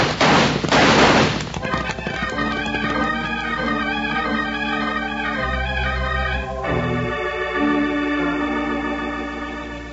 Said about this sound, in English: Yeah, they're coming after us, Kino. Well, then blast away. That'll slow them down.